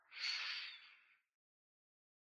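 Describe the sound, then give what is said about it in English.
A single deep breath drawn in during a guided belly-breathing exercise: a breathy, hissing inhale of about one second, fairly quiet, then silence. “Deep breath into your belly.”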